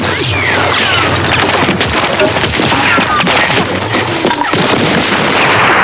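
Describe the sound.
Gunshots and a tank explosion in a street battle, a loud, continuous barrage of crashing booms and rattling shots with no pause.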